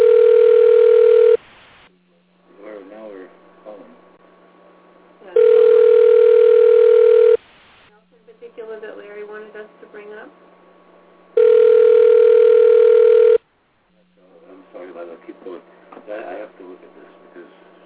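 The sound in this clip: Ringback tone of an outgoing telephone call, heard three times as steady two-second buzzing tones at even intervals, with people talking in the gaps between them.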